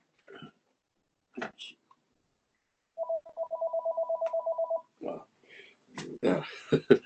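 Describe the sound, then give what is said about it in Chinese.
A telephone rings in one rapid trilling burst of evenly spaced pulses, bright and steady. Brief voice sounds and short noises come before and after it. “电话响”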